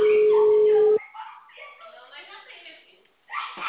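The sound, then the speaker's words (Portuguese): A steady telephone tone after a dropped call, holding one flat pitch for about a second before cutting off abruptly, followed by thin, muffled voices over the phone line. “Alô? Oi, a ligação caiu, vou começar de novo.”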